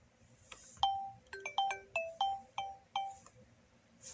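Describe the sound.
A telephone rings with a looping melodic ringtone. Many bright chime notes fall in quick succession and each one fades fast, heard alone against a low, quiet background.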